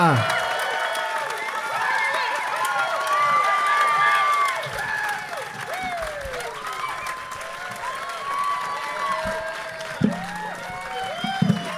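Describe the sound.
An audience applauds and cheers in a standing ovation for guests arriving on stage in downtown Vegas. The dense clapping and whoops hold steady throughout, with a few sharper bursts near the end.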